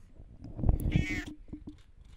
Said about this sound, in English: Who's that? My kitty cat.